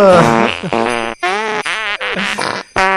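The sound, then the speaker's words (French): Fart sound effect played as a rapid series of several buzzy, pitched blasts, each bending up or down in tone and separated by brief gaps, loud and alone without talk. “Ah, ça fait toujours rire les pets.”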